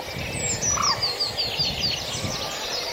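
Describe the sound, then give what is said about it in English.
Early morning birdsong from a dawn chorus: a quick run of short, high chirps, each slipping downward, rises over a constant soft hiss of background sound, with no talking. “we will continue for another hour or so the beautiful sounds of early morning bird song”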